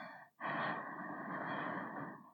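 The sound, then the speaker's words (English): A single slow, deep breath in, drawn steadily through the airway for about two seconds, soft and airy with no other sound around it. “Think about the great day. Breathe in,”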